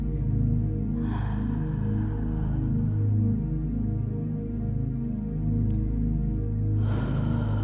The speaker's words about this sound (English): Send the breath down to the toes. And we breathe out audibly.